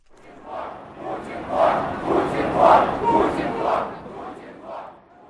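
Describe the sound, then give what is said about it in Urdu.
A crowd at an opposition street protest in Russia chants slogans in rhythmic, swelling bursts of many voices that rise and fall in volume throughout. “روس کے 90 شہروں میں ہفتے کو زار مردہ باد کے نعرے گونج اٹھے۔”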